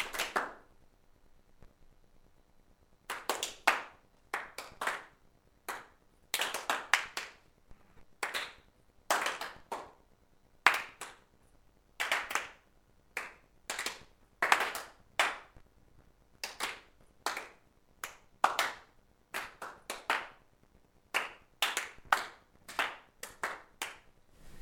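Hands clapping and tapping in a group exercise. Many sharp claps come in irregular bursts after a quiet few opening seconds. Fairly faint, with no voices.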